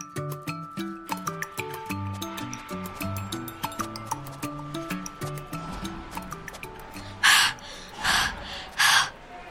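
Panting and gasping for breath after a long climb up stadium bleachers. Three loud, airy gasps come near the end, after a stretch of light melodic music.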